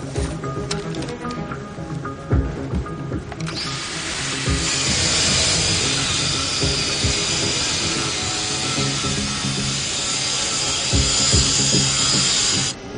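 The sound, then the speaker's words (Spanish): A saw grinds through the lock of a sealed iron door in an underground room full of valves during a robbery, a loud, continuous harsh hiss and rasp that grows louder and brighter partway through. “Se dirigen a una hermética puerta de hierro y con una sierra, Doug comienza a cortar la cerradura.”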